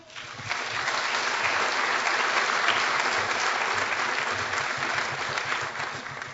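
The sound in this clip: Applause from an audience at a Christian gathering welcomes a guest speaker, building quickly to a dense, steady clapping that holds for several seconds before easing slightly at the close.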